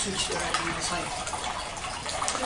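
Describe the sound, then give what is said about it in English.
Running water from an indoor waterfall makes a steady, full hiss and rush that stays even and unbroken throughout. “During the class, shall we turn this off, this waterfall?”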